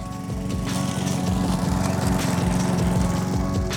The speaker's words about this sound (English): Maybe you mowed your lawn.